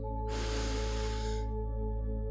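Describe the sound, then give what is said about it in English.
A single slow exhaled breath during a guided breathing exercise, a soft airy rush lasting about a second over a steady low background hum, with no voice heard. “Hold it and exhale, making a comforting sound like ah.”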